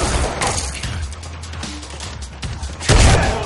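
Gunshots in a shootout scene from the action film John Wick: Chapter 2, a few loud, sharp blasts standing out from a busy, noisy soundtrack.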